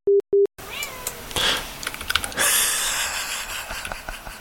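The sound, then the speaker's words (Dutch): Cats meowing indoors during a voice recording, with a short pitched meow after two brief electronic beeps, followed by scattered clicks and rustling. “Wat is er aan de hand, poezen? Kom dan toch. Gemiauw tijdens het inspreken ook.”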